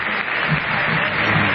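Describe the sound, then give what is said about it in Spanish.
A stadium crowd at River Plate applauding Messi, a dense, loud, unbroken wash of clapping that holds steady for under two seconds. “¿cómo no va a aplaudir el público de River si es en el único estadio donde Messi está en victoria a lo largo de su carrera?”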